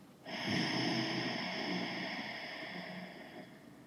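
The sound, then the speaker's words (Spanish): A forceful breath is pushed through the throat, a raspy, hissing exhalation with a faint voiced buzz. It starts abruptly and holds for about three seconds before tapering off, alone and without speech. “permite exhalar como si quisieras sacar todo el aire por la garganta. Sonaría algo así como inhala y la exhalación es”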